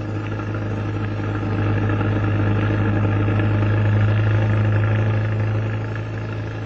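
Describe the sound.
A car engine drones steadily while driving, a constant low hum with a faint rough texture that holds an even level for the whole stretch, with no voices over it.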